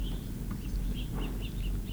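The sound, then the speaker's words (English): Faint, high chirping calls of three acorn woodpeckers, with a young bird being fed. Many short notes repeat over a steady low background rumble. “Three acorn woodpeckers. One young apparently being fed.”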